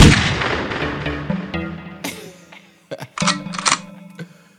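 A single loud gunshot bursts out with a long, rumbling, decaying tail, followed by a few sharp mechanical clicks.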